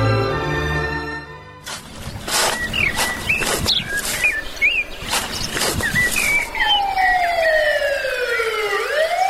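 A police car siren passing through a village, entering near the end as a loud wailing tone that sweeps and falls. Before it come bird chirps and scattered sharp taps.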